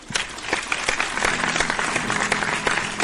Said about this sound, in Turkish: Alkışlar.